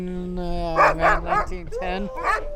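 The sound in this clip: A sled dog at the Iditarod ceremonial start barks and yelps in a few sharp bursts. People talk over and between the barks.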